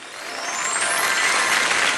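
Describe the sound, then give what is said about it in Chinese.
Warm audience applause at a xiangsheng crosstalk comedy performance. It is a smooth, dense wash of clapping that swells slightly and holds steady and loud. “谢谢大家热情的掌声， 谢谢大家。”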